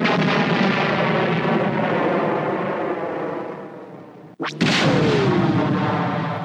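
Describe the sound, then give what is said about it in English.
A sci-fi sound effect of an X-Wing starfighter being hit: a dense, loud roaring rumble breaks off into a sharp crack, then a falling whine sweeps down as the heavy roar resumes. “X-Wing gets hit.”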